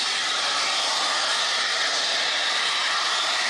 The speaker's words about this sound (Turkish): gaz metrelerce havaya yükseldi. Kocaeli'nin Başiskele ilçesinde çalışma sırasında doğal gaz borusunun delinmesi paniğe neden oldu.